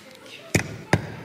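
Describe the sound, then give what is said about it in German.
A hammer strikes a nail in three sharp, hard knocks spaced at uneven intervals, the last one landing right at the end, each a brief bright impact over a faint hiss. “hier ist ein Nagel. Dann will ich doch mal den Nagel auf den Kopf treffen.”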